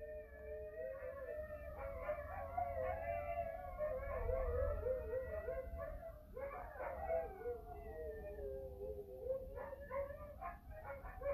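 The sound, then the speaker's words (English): Dogs barking and howling in the background: a faint, steady chorus of long wavering howls mixed with yips and short barks, continuing throughout without pause. “I'm so sorry if you hear dogs in the background.”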